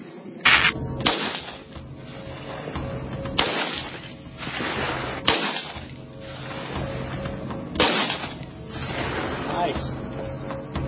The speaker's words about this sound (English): This is one of my favorite guns. The AR-15 or its equivalent. There's some equivalent here. Yep, M4. Yep. All right, buddy, we'll let her rip.